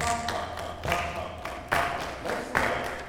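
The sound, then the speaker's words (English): Choir members clap during a rehearsal, producing a few uneven, soft bursts of group claps with faint voices beneath. “Put your music on your lap and clap the words as you sing. So we're going to go. You know that. You know that. You know that. I want this half of the room to clap the triplets.”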